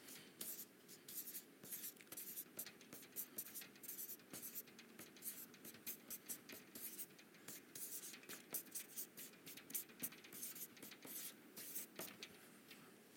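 Chalk-like handwriting on a board, careful calligraphic lettering: many soft, scratchy strokes in an irregular rhythm, faint and continuous throughout.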